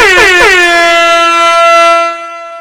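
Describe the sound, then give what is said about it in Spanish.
Loud air horn sound effect: one sustained, brassy blast with a rich stack of harmonics, held steady for about two seconds before cutting off and leaving a short fading tail. “yo busco un pito ahí por internet y lo cuelgo”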